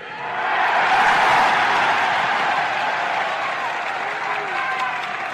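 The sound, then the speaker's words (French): A long crowd ovation in Montréal after a political speech: dense applause mixed with crowd noise swells quickly to a loud peak, then eases gradually while staying intense to the end. “La longue ovation mêlée d'émotions est intense.”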